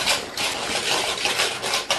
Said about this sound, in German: Mit ein bisschen Schwung aus dem Handgelenk kriegt man auch das Ei in die Butter gerührt.